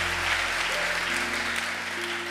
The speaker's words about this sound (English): Don't you believe in clapping in this church?